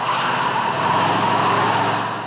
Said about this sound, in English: This whole thing handles well. Ever drive a hearse